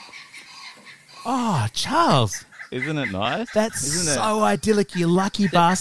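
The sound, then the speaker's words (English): A human voice imitates the call of a squat brown eagle at a lake in Kakadu National Park, producing loud, warbling whoops that rise and fall in pitch. Spoken words come before and between the calls. “That's a bird call of this sort of squattish brown eagle.”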